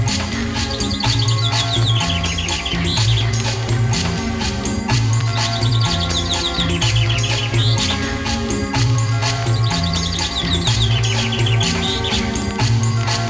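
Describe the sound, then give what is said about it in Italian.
Chaffinch song, three high, trilling phrases that each run downward, repeated at regular gaps over steady music with a throbbing bass line. “Il fringuello.”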